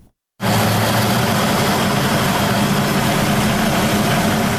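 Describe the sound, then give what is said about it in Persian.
A small electricity turbine runs in Doab village, Khinjan district, Baghlan, with a steady mechanical drone. It starts abruptly after a brief silence and then holds loud and constant, with a strong low hum. “این توربین کوچک در روستای دوآب ولسوالی خنجان ولایت بغلان برای حدود 50 خانواده انرژی برق تولید می‌کند.”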